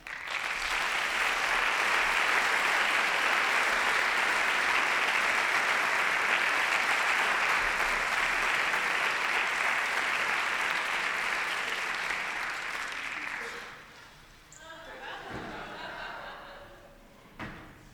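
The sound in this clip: Audience applause welcoming three musicians onto the stage: dense, steady clapping holds loud for about thirteen seconds, then thins and dies away, leaving faint scattered clatter.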